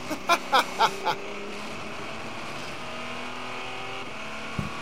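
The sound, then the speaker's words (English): A diesel race car engine heard on board, trundling along at around 4,500 revs as a steady, low droning hum with a smooth tone, after a few short, sharp bursts at the very start. “So you see, the noise you can hear on board is a diesel, so it's not going to be like, you know, a frenetic whiz, it's just trundling along at 4,500 revs as it does.”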